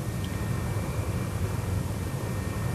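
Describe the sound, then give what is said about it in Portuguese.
Heavy propeller aircraft gaining speed on takeoff, a loud, dense, even roar with a deep low rumble that holds steady throughout. “No ar, a aeronave continuava muito pesada, até ganhar velocidade.”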